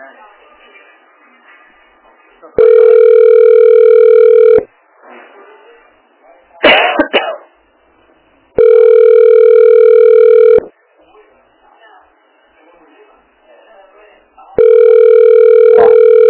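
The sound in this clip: Ringback tone of an unanswered phone call to a health clinic: three long, steady buzzing tones, each about two seconds, separated by pauses, with the last one cut off. A brief clatter and faint voices fill the gaps.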